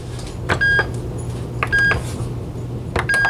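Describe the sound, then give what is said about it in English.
Panini grill control buttons are pressed for power, sandwich and okay: three short, high electronic beeps, each preceded by a soft click, spaced about a second apart over a low hum. “Before I do, I'm going to put my finger on the panini button. That's the fifth one over, if you recall. The order will be power, sandwich, and okay. I'll do that now.”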